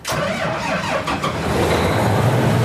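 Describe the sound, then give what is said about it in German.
A combine harvester engine on a farm, run during a check before the harvest season, comes up quickly and holds a loud, steady, rumbling roar with some mechanical whine in the first second. “Der Mähdrescher auf dem Hof von Sebastian Fegler in Züssow soll in die Erntesaison starten. Dafür wird die Maschine noch einmal durchgecheckt.”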